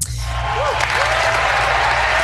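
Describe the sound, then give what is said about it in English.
Applause on a talk show, a short, steady patter of clapping that runs evenly for about two seconds at a moderate level. “Stingy. The man is stingy with the applause.”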